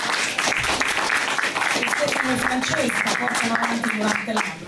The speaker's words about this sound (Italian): Salutiamo con un applauso perché va sostenuto il lavoro